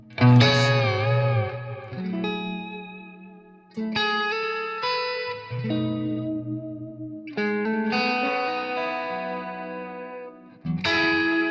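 Electric guitar through a bass-heavy Blues Driver overdrive pedal with the guitar volume knob backed off, giving a mildly driven, warm tone. A few sustained chords ring out in separate strummed phrases, fairly loud, each decaying slowly before the next.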